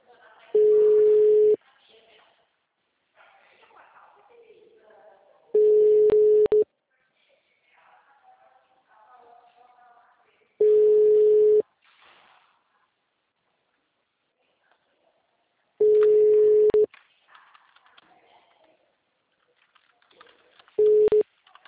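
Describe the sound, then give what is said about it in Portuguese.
Telephone tone on a Portuguese-language phone line: five steady, mid-pitched beeps, each about a second long, separated by long gaps in which a faint voice talks. “Sua chamada está sendo encaminhada para a caixa de mensagens e estará sujeita a cobranças após o sinal. O número está ocupado.”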